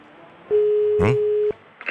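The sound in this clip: A telephone ringback tone while calling someone to check they are awake: one steady mid-pitched tone lasting about a second, with a brief vocal sound over its middle and another short vocal burst just after it ends.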